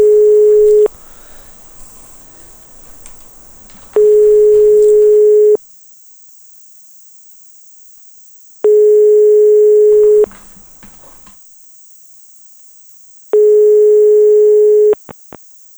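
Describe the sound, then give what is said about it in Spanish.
A telephone line tone after redialing: four long, steady beeps separated by pauses of several seconds, with faint hiss between them and a couple of sharp clicks at the very end. “Marca otra vez, a ver si sale el teléfono.”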